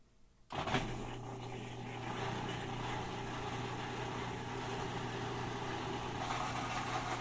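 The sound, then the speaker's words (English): A washing machine drain pump draining the last water at the end of a normal cycle starts abruptly after a brief quiet moment, then runs as a faint, steady low hum with a soft whooshing rush. “That's the drain pump catching the last of the drippings.”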